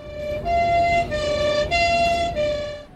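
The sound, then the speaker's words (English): Ambulance siren wailing in an airport departure lounge, loud and steady, its bright tone switching between pitches in repeated segments, with no voices. “Oh, and that's Bob's ambulance.”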